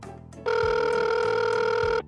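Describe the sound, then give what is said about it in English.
A single telephone ring: a steady, bright electronic trill lasting about a second and a half, sounding on its own between quieter low background noise. “Phone. Phone. Busy. Busy.”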